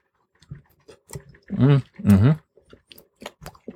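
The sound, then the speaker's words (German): Chewing on a cooked al dente noodle, unsalted, taken to taste it: wet clicks and soft crunching bites, with two short voiced hums in the middle. “Wir müssen mal kurz eine Nudel probieren, Sekunde.”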